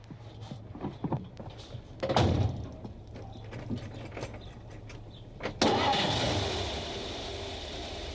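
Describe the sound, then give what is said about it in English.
A car drives down a rough logging road in Alaska in the early morning. Scattered knocks and rattles give way to a sudden surge of loud engine noise that holds steady, then slowly eases. “The mayor of Nowhere, Alaska, Clayton Earmark, drives down a rough logging road”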